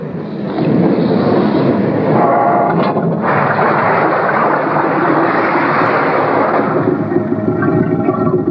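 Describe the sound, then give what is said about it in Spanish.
A submarine gives a loud, steady roar with a dense rumbling wash of sound that holds almost unchanged for the whole stretch. No voices are heard over it. “Tenía razón, Trixie. Es un submarino. Y esto fue lo que hizo que el barco de placer se hundiera con todos a bordo.”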